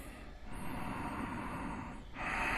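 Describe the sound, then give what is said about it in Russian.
Ujjayi breathing during a yoga exercise: a continuous, soft, hissing breath that holds steady and shifts in tone near the end, with a faint high whine above it. “Плечи расслабили, лицо расслабили. Дышим уджайи.”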